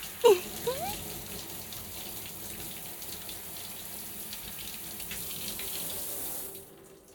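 Water running from a tap while hair is rinsed at a sink, a steady soft rush after a single small knock at the start, continuing evenly before cutting off just before the end.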